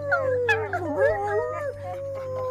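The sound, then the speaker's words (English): Dogs in kennels, some muzzled, yelp, whine and wail in overlapping wavering howls and whimpers, with a steady low hum running beneath throughout. “they let out a chorus of yelps and whines and wails and muzzled howls”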